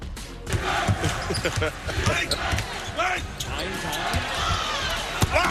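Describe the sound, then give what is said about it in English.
Basketball sounds from a BYU game dunk highlight: sharp ball bounces and thuds over a steady wash of crowd noise, with voices mixed in. “Yoeli Childs scored 31 points for a third consecutive game, including another look at the greatest dunk, maybe, in BYU basketball history.”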